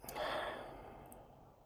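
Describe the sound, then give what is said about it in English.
A slow, deep breath in a guided group breathing moment at a workshop: a soft, airy rush that swells and then fades over about a second and a half, faint and alone with no talk. “Nice deep inhale. Exhale.”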